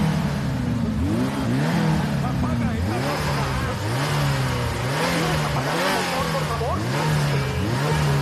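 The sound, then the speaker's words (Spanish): A car engine revs over and over in loud, steady surges, its rumbling tone repeatedly climbing and dropping in pitch with no pause between revs. “¡Apaga el maldito motor ya!”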